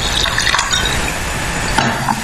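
Ice cubes dropped into a glass while mixing a soju drink with lime and soda: a few bright clinks and a splash of liquid over steady, noisy background hiss.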